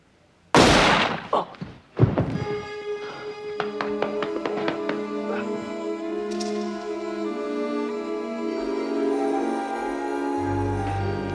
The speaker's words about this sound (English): That Waylon character, the historian, gets shot by that gunman in Dixon Hill's office.